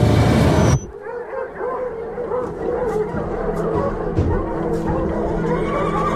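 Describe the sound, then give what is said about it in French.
Agitated farm animals on a neighbouring farm: horses whinny and dogs yip and bark restlessly, with a loud burst at the start giving way to a quieter, busy stretch of repeated calls. “Il entend les animaux de la ferme d'à côté qui semblent anormalement agités.”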